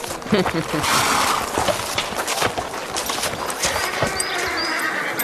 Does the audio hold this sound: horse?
yes